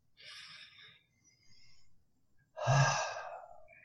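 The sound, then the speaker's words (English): A person breathing on cue, taking three breaths: a soft airy one, then a fainter one, then a louder, deeper intake that swells and trails off. The breathing is quiet overall, with no talk. “Take a deep breath.”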